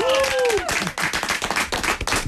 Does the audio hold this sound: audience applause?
yes